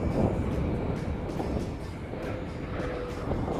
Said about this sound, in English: Atlantis' nose being now rotated down toward the runway, the chute being deployed.